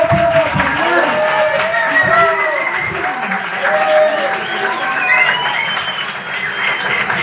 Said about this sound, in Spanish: Vale, pues un aplauso enorme.